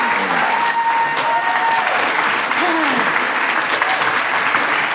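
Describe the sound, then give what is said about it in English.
Church audience applauding in welcome of a pastor and his wife, a thick continuous round of clapping with voices calling out over it. “Would you just put your hands together and give a house of the Lord welcome to Pastor Bob and Sue McGregor? Come on. Come on, all stand up.”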